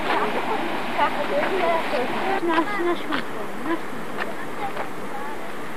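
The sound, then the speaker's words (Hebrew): Sea waves surge beneath a rock into a tunnel cut by the sea, a continuous rushing wash of water with people talking over it. “פה יש מנהרה שהים חותר, הופ, מגיעים גלים תחת לסלע הזה.”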